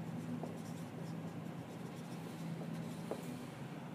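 Faint scratching of writing on a board, a continuous soft scrape with little change, quiet and without voices.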